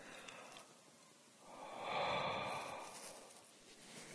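A single soft exhale of hot breath, quiet and airy, swells gently and then fades away over about two seconds.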